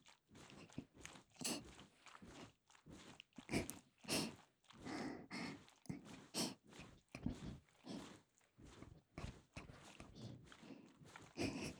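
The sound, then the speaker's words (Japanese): Fingernails scratching in many rhythmic, raspy strokes, each a short crackly burst in a steady back-and-forth pattern, fairly loud, with no talk over them. “爪を立てた方がもっと気持ちいいですかね。ほら、こうやってカリカリカリカリカリ。”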